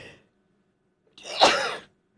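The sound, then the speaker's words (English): A person sneezes once, a sharp, breathy burst that swells quickly and trails off, standing alone against near silence. “Sometimes you just got to sneeze.”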